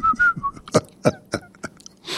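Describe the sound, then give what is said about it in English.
A person tries and fails to whistle, producing a few brief, thin, wavering tones, then several breathy puffs of air. “try to whistle. I can't whistle. I've been trying and trying.”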